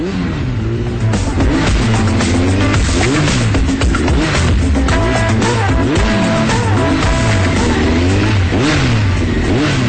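A motorcycle engine revs loudly and without a break, its pitch swinging up and down again and again through the whole stretch.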